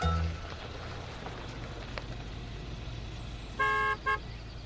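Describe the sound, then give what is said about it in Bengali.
A car horn sounds twice at an automatic gate in a secluded wooded area, a longer honk followed by a brief second toot, both over a steady background hiss and low rumble. “গাড়িতে horn দিতেই automatic gate খুলে গেল”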